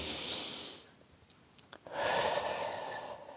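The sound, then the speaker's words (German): One slow, deep breath is drawn in and then let out, soft and airy. A short quiet pause separates the inhale from the longer exhale, and no one talks. “schließ die Augen und atme einmal tief ein und aus.”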